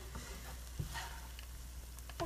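An egg mixture like scrambled egg sizzles in oil in a pan, a quiet, steady frying hiss broken by a few sharper scraping clicks as it is stirred.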